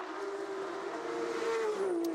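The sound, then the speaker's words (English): Engine of a dark grey, graphite-coloured Porsche race car on a circuit: a loud, steady droning roar that holds a constant tone, with its pitch easing down slightly near the end. “Ninth position for the 666. That's the sort of dark grey graphite coloured Porsche, if you get to see that.”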